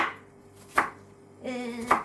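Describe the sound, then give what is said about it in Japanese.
A knife chops an onion into cubes: two sharp, distinct strikes about a second apart stand out against faint, quiet background. “玉ねぎね。なんかみじん切りって書いてあったけど、みじん切りはちょっと辛いから、角切りぐらいで許して。”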